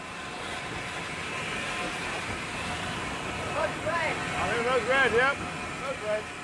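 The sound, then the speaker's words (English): Train slowing as it nears a signal, some carriages braking harder than others, a continuous low rumble and hiss with wavering high squealing tones rising out of the noise in the second half. “The train slows as it reaches the signal.”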